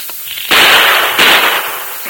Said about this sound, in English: Fire a shot or two in that direction to cover me, Tonto.